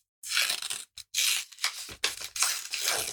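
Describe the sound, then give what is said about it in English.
An envelope being torn open makes a few loud, papery ripping bursts, separated by brief pauses, each rough tear rasping noisily before the next pull, with no voices. “I'm going to open the envelope here because this is, of course, about football.”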